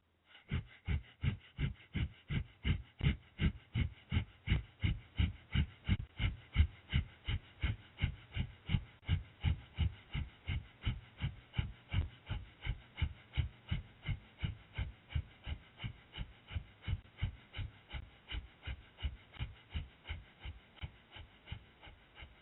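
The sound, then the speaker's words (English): Breath of fire during a yoga pose: rapid, rhythmic nasal breathing with many forceful, evenly spaced exhalations that keep a steady pace throughout. “And start breath of fire.”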